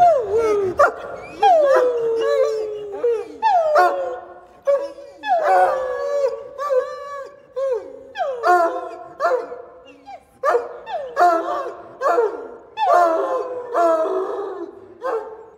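A dog howls in a singing way, giving many drawn-out howls that slide down in pitch, with short yips between them. The howls repeat steadily throughout and are loud and clear, with no talking.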